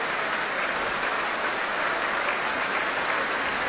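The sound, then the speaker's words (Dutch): A concert audience applauds the solo oboist after a performance, a dense, steady roar of clapping that stays even throughout. “Groot applaus nu voor Alexei Ogrinchuk, de solo-oboist.”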